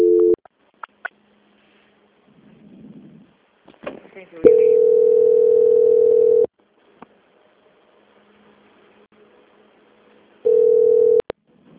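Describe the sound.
Steady telephone tones during a call transfer: a flat beep lasting about two seconds, then near-silence with faint clicks and murmurs, then a shorter repeat of the same tone.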